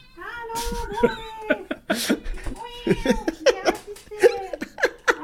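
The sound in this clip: A pet cat meows over and over after its owners return from two days away, a run of loud, tonal, drawn-out calls that waver in pitch, with short gaps between them.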